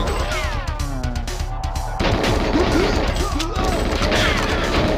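Dense, continuous gunfire and crashing impacts in a shooter video game level, many rapid shots blending into a busy barrage that grows louder about halfway through.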